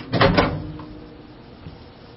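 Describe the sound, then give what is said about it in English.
A microwave oven door opens after the food has cooked, giving a short clunk and rattle at the start. Quiet follows, with only faint low noise. “open the microwave. Now, you need to be careful because the bottom of the tray is hot.”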